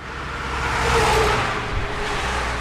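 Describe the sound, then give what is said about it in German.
Heavy road traffic speeding past at a small roadside crossing on a highway in Czechia, a broad rushing roar that swells to a peak midway and then holds steady; no voices. “Lastwagen rasen vorbei und jedes Mal klappern die Holzbretter des heruntergekommenen Bushäuschens am Straßenrand.”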